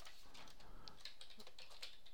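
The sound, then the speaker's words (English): Faint typing on a computer keyboard, a sparse scatter of light clicking keystrokes over a low steady hiss, with no talk over it. “There's several people there that weren't there the last time I saw. Does anybody? I'll type it out.”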